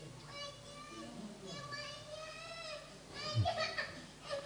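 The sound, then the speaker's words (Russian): A young child makes noise in a room over an adult who talks throughout. Short, higher childish vocal sounds rise above the steady talk, with a louder burst near the end. “Пожалуйста, кто-то позаботьтесь о ребенке, он шумит.”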